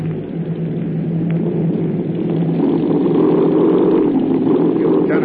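Aircraft engines run during a forced landing, making a continuous low mechanical drone that grows slightly louder partway through, with no voices.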